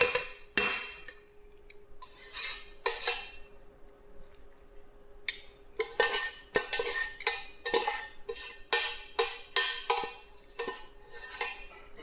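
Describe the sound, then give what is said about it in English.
A utensil scrapes pesto from a pan into a bowl, with many short scrapes and metallic clinks against the cookware in an irregular run and no talking. “Just scraping it down, and don't leave any pesto behind.”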